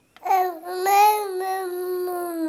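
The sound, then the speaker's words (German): Babbling of two-month-old infants: a single sustained, high-pitched vowel-like vocalization of about two seconds, with shifting pseudo-vowel tones and no other voices. “Das ist schon Mama Mu, also da hört man schon fast Pseudo-Vokale heraus. Die sind 2 Monate alt.”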